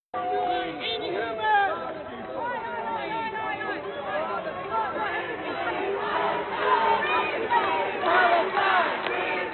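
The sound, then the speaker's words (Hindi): Pro-Palestinian protesters chant slogans in the main hall of Liverpool Street station. A dense mass of raised voices stays loud and steady for nearly ten seconds, with overlapping shouts rising and falling throughout. “Station पर फिलिस्तीनी समर्थकों ने विरोध प्रदर्शन शुरू किया। Liverpool street station के मुख्य हॉल में नारे लगाए गए।”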